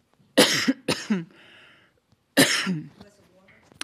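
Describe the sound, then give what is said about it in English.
Someone coughs and clears their throat, as if something is caught in it: two quick harsh coughs close together, a pause, then one more rough, throaty cough, fairly loud. “hold on a second, I've got something in my throat.”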